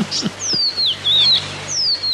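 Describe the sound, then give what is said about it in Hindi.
A small bird chirps in thin, high, whistled sweeps, several in quick succession over a faint steady background hiss. “कुछ देर तक वो उस चिड़िया का इस डाल से उस डाल थिरकना देखते रहे।”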